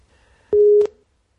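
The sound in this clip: A telephone busy tone sounds as a call is placed: a single short, steady mid-pitched beep that stops abruptly.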